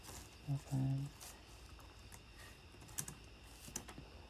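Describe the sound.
Faint computer keyboard typing, a few scattered, light clicks against a quiet background, as someone taps in a number for an online search.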